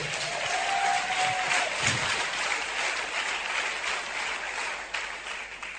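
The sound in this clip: Congregation applauding at a French-language church service, a thick, continuous wash of clapping that stays fairly loud and unbroken throughout, without distinct separate claps.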